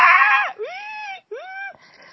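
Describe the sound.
A voice imitating people screaming: a loud, high sustained wail that drops off, followed by two shorter cries that swoop up and then sag slightly, with no other talk around them.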